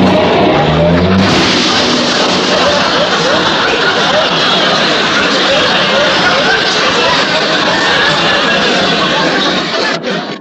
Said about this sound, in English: There ain't much room here in this garage. And I gotta back out very carefully.